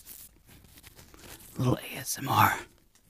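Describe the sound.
A package being torn open by hand: two louder crinkly rips of paper or plastic follow soft rustling and handling noise.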